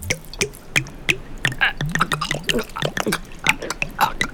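Water splashes and drips in quick, irregular little spurts as it is poured from a canteen into someone's mouth, a rapid patter of wet droplets that carries on throughout.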